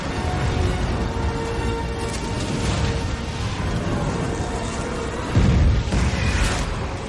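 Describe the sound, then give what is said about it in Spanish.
Catapults fire dozens of flaming, pitch-coated balls into a valley in a fantasy action film, heard as dense rumbling rushes with a deep, heavy boom late in the scene. “Un hombre golpea una palanca. Fuera las catapultas lanzan docenas de bolas al valle.”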